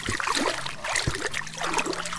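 Hands dip into lake water from a wooden pier and move among yellow water-lily leaves. Soft trickles and gentle dribbles run continuously, broken by a few small splashes.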